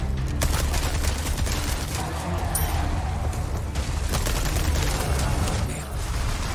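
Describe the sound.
Video game gunfire in a castle setting: a dense, continuous volley of many rapid shots over a loud, noisy rumble that holds steady throughout.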